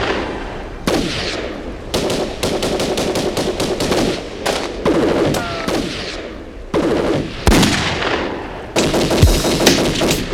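Rapid automatic gunfire in loud, dense bursts, many shots rattling in repeated volleys separated by brief gaps, with a heavier boom near the end and no talk.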